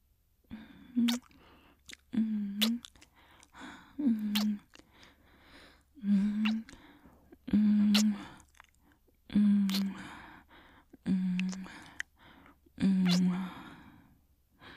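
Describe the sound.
Soft, wet kisses in an intimate romantic roleplay, about eight separate lip smacks spaced a couple of seconds apart, each joined by a breathy, voiced sigh.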